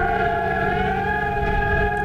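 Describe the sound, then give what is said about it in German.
Civil defense warning sirens sound during a nationwide alert test day in Germany: a loud, continuous wail held at a steady pitch throughout, with no voices. “Ja, die Sirenen, auch unsere Handys werden dann Alarm schlagen, denn es ist Bundeswarntag 2026.”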